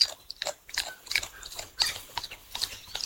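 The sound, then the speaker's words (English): A koala chews a bundle of eucalyptus leaves in a run of moist, crunchy bites and tearing snaps. The bites come in uneven bursts, fairly close and crisp, with no talking over them. “The last thing you'd ever want to eat is a bundle of eucalyptus leaves like our guy is doing right now. I'm getting up here so we can hear him crunching away.”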